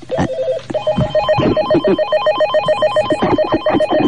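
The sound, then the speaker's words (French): An electronic telephone at a switchboard rings in rapid repeated warbling pulses, with a brief break near the start. Loud thumps and knocks fall irregularly over the steady ringing pattern. “Mais avant, j'ai un coup de fil à passer, ah. Où j'ai reçu un coup de fil. Voilà, je m'approche vers le standard.”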